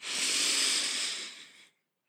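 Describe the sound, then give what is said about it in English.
A single deep inhale during a guided breathing exercise, a long, airy hiss of drawn breath that swells quickly, holds for over a second, then tapers into silence. Fairly soft, with no talking over it. “exhale all of the air out. Hold for four, three, two, inhale.”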